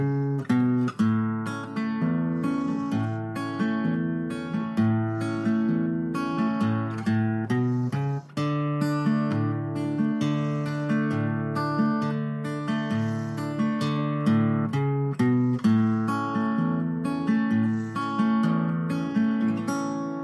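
Acoustic guitar fingerpicked in a Travis-style blues pattern, alternating between E and B chords, with a steady thumbed bass under plucked upper notes and occasional tie-in runs, playing continuously without talk.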